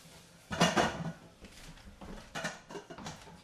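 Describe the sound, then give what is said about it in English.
A big cooking pot being taken out and handled: one loud metallic clank and rattle, followed by a few softer knocks and clatters. “And we're going to get a big pot. And here it is.”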